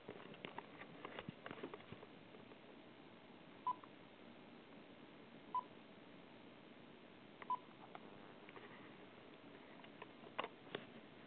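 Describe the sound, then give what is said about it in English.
Telephone keypad tones sound as a number is dialled: a few short, clear beeps spaced several seconds apart over a faint, thin line hiss, with no one speaking. “I will dial one more time.”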